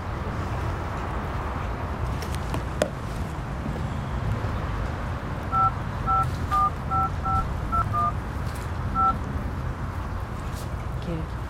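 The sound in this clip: A telephone number is dialed at night on a keypad: a quick series of short, faint, evenly pitched beeps over a steady background hiss.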